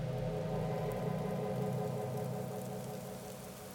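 Humming rain on a dark November afternoon, a steady dense hiss over a low droning hum that holds evenly, then eases slightly softer toward the end.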